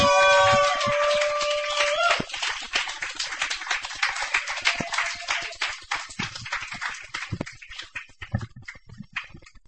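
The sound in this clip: Audience applause welcoming a reader to the stage at a reading: dense, rapid clapping that slowly thins and softens, following a voice heard at the start.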